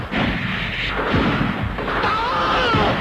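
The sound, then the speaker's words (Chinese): Gunfire from a battle scene in a Chinese stage performance, with the machine gun fire coming as dense, sustained bursts and booms that hold at a steady level throughout. “鬼子越来越近了，刘红端起机枪要冲。”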